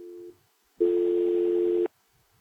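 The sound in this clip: A telephone line tone plays while a caller is being connected: one short, low, steady beep, then a pause, then a longer buzzing tone lasting about a second, heard alone.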